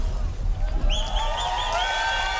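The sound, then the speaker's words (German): Concert crowd cheering and applauding at a live show, a dense, steady roar of many voices and claps that holds at an even level for the whole stretch, with a thin sustained tone running above it. “Passt auf euch auf, nochmal großen Applaus für Mellow My Man, DJ Davison.”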